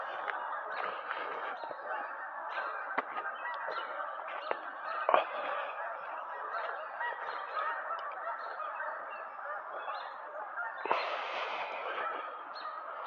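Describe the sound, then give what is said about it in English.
Hundreds of geese in many V-shaped groups honking as they fly up from a river, a continuous chorus of nasal honks overlapping without pause, with a few louder calls standing out. “There's so many groups of them now, I'm losing count. Hundreds of geese. Hundreds of geese.”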